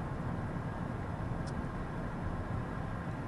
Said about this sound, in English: I think it'd be super awesome if you're able to hear like the road noise from us driving. I think you might be able to.